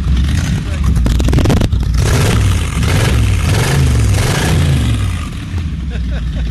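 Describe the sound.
A 1957 Buick 364 Nailhead V8 runs in a 1964 Buick Riviera fitted with a 400 Turbo transmission, giving a loud, steady low rumble with continuous mechanical roar throughout.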